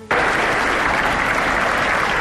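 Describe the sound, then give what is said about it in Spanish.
Dense, loud applause from a crowd at a farewell for a man from Burgos, starting abruptly after a brief silence and holding steady without a break. “Con esos aplausos despedían a el burgalés Carlos Sáenz de Tejada.”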